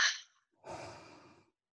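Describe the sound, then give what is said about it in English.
Soft breathing as part of a relaxation exercise: a brief breathy puff, a short pause, then a longer, steady, audible exhale through the mouth. The exhale is quiet and airy and tapers off gently. “Again, inhale through your nose and exhaling out of your mouth.”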